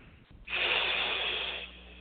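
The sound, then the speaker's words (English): A single deep breath taken during a guided meditation. It is a soft, airy rush that begins abruptly, holds steady for about a second, then eases off into quiet. “go ahead and take one more deep breath”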